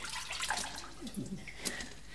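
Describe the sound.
A black creature walks into water, making soft, faint splashing and sloshing with a few scattered drips.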